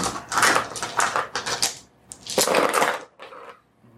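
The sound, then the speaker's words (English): Dice clatter as they are rolled again and again during a tabletop role-playing game session. A few loud, rattling bursts sound in close succession, and a last, fainter rattle trails off at the end. “just keeps rolling dice”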